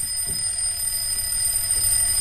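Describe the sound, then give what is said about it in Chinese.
Alarm clock ringing harshly, a steady piercing high-pitched tone that holds unbroken for the whole clip with no voices. “不久，闹钟刺耳的响起，医生颓废地坐起身。”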